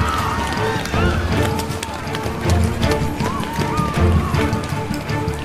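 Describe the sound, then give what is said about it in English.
Rapid footsteps of a crowd of citizens running away in an audio drama, a loud, busy patter of many feet mixed with voices throughout. “In the confusion, the citizens started running away.”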